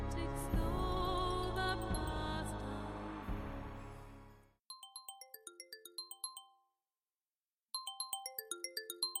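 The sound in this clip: A mobile phone ringtone plays: a sustained synth chord that slowly fades, then a bright plucked-note melody in quick descending runs, a short silence, and the melody starting again.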